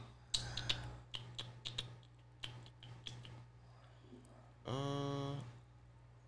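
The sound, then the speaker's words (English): Typing on a computer keyboard, heard as several sparse, uneven key clicks, followed by a brief voice. “I'm typing it in right now.”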